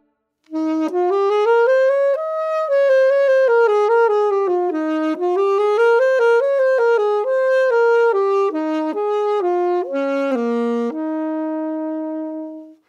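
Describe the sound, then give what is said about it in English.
An antique saxophone made by Adolf Sax in the 1860s plays a solo melody, a rich, smooth-toned line of sustained notes stepping up and down, ending on a long held low note. “This is the sound of a saxophone made by Adolf Sax himself in the 1860s.”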